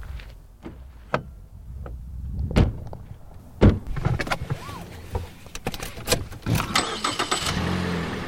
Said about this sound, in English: Our Disappeared in the Desert team took a drive out to that area. As we're getting closer now, we're 6 minutes away, and there's nothing on either side of us.